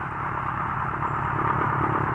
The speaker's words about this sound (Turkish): Biraz gaz verelim bakalım şu hurdaya.